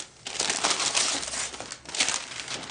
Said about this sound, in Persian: ببین برای چی خریدم. باز کن ببین دوستش داری. باز کن زود باش.